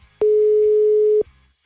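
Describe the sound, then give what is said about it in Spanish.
Telephone ringing tone heard as a call is dialed, a single loud, steady, mid-pitched electronic beep lasting about one second, alone over faint low background noise. “Está en el ring, ring, ring.”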